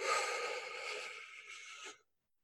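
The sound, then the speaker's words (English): Long, deep inhalation into the belly during a guided breathing exercise: a soft, airy rush of breath held steady for about two seconds, gradually easing, then stopping abruptly into silence. “I invite you to breathe into your belly.”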